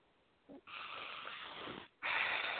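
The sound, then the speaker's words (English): A deep breath drawn in through the nose, then pushed out through the mouth: two long, breathy hisses, the second louder and brighter, separated by a brief pause. “And now take a big breath in through your nose and out through your mouth.”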